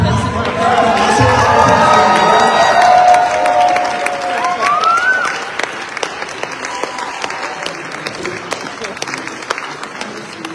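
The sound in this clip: A standing church audience gives its senior pastor loud, sustained applause at a morning service, with cheering and voices mixed in. The applause eases somewhat in the second half but continues throughout.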